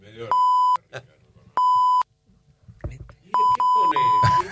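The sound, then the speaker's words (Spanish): Radio time-signal beeps mark 1:30 in the afternoon on a Spanish-language station. Loud, pure, steady beeps at a single pitch come in a short series, with the last one longest. Brief bits of voice and studio noise fall in the gaps. “va a sonar el top de la 1:30 de la tarde y va a llegar el señor Ricardo Rodríguez con las noticias”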